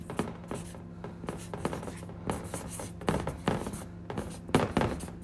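A pen scratches across paper as notes are written by hand: many short, dry strokes in irregular bursts, with no talking.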